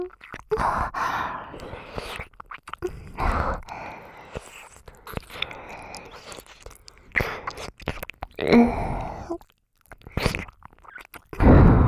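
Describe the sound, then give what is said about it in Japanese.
ASMR ear-eating mouth sounds come as soft, wet licking and chewing noises. They are irregular and close, mixed with breathy sighs and short pauses. “お耳おいしいよ。弟のかわいいお耳食べるの興奮しちゃう。”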